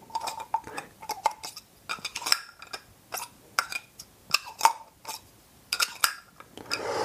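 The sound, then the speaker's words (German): Light metallic clinks and clicks as an inner sound-damping insert is fitted into a silencer casing with its lid, a handful of sharp, irregular taps separated by quiet gaps, fairly faint overall. “Hier der Inneneinsatz, der die Schalldämpfung eigentlich macht. Und dann hier der Mantel, der Deckel. Ja. Du gibst also das hier innen rein.”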